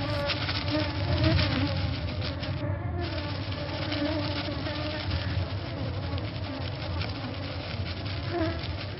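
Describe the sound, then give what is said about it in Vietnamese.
Loud, dense buzzing of a swarm of black, dragonfly-like flying insects circling around vegetation, a continuous droning hum that holds steady through the whole clip. “có vô vàn những con gì đó màu đen, trông tựa như chuồn chuồn nhưng không có mắt, bay lượn vòng quanh những đám thực vật”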